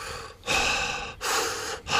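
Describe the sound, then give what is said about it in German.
Heavy breathing through the mouth by someone lying in bed drunk and nauseous: a few loud, rushing breaths in quick succession, each broad and airy with short gaps between. “meine Taktik ist, ganz heftig durch den Mund zu atmen”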